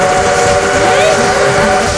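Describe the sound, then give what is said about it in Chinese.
A train whistle blows over the loud, steady rumble of a train. The whistle holds bright, sustained tones with a brief pitch sweep near the middle, continuous for about two seconds. “哎，怎么追火车？”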